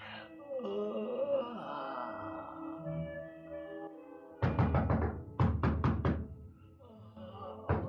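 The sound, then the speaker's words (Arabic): Knocking on a door that wakes a sleeper: loud, sharp raps in two quick bursts of several blows each, separated by a short pause. “الله يهديك يا اللي قلقت نومي. مين اللي بيخبر؟ افتح الباب، انا كامل.”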